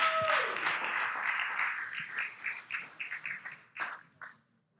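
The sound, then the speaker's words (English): Congregation applause as women come up on stage: dense clapping that thins into a few scattered claps and fades to silence. “I want us to put our hands together so the ladies come join me up on stage. All right, come on, can you just welcome them as they come?”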